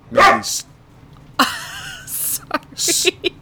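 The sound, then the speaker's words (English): A puppy barks and yips in a few sharp, high bursts separated by short pauses, with a drawn-out whine in between. “interruption from the pup”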